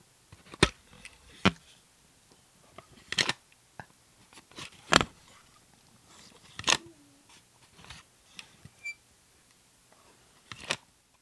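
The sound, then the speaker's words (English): A plastic cassette tape case opens with quiet, sharp clicks and snaps. Several separate clicks are spread out, with near-silence between them. “That was the sound of a cassette tape case opening.”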